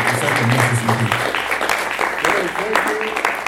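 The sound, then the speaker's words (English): Audience applause after a professor's presentation at an academic talk: dense, steady clapping that fills the whole clip at an even level, with a voice mixed in near the start. “I hope you heard the clap. It was quite loud.”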